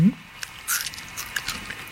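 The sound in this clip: Biting and chewing a grilled insect larva: a few soft, moist crunches and clicks, fairly quiet, spread unevenly across a short stretch.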